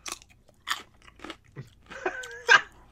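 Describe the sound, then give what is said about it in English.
Crisp crunching and chewing of a pickle that is supposed to taste of horseradish. Several separate, fairly loud crunchy bites come at an uneven pace, with quiet gaps between them and no talking. “Okay, let me eat another one then. I'll gladly... I got like 10 pickles in here. I'll just keep chomping until I taste horseradish.”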